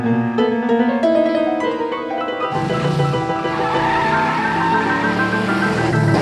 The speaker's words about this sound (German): Folgen Sie dem Wagen! Schnell!